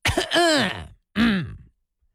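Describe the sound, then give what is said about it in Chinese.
One voice imitates two men lying on beds in an outer room coughing heavily: two loud, voiced throat-clearing coughs. The first is longer and the second shorter, each sliding downward in pitch. “戴永清、宋海鹏躺在床上，俩人啊重重的咳嗽了一声。”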